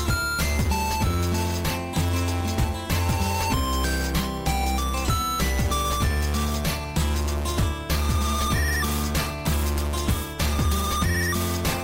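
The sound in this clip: 8-bit chiptune music from a German group plays alone, with bright square-wave melody lines over a steady, pulsing rhythmic beat and repeating bass notes.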